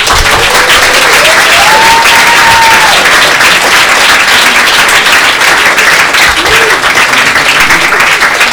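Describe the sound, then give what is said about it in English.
A comedy audience applauds loudly as a comedian comes on stage, a dense, unbroken wash of clapping that holds steady throughout. “will you please welcome, I don't like him at all, the amazing Christian Riley!”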